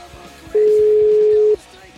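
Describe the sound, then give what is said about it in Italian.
A single steady telephone tone sounds while a number is dialled, holding at one even pitch for about a second before cutting off, with faint murmur around it. “Facciamo il numero che dobbiamo fare, vai. Vediamo chi risponde.”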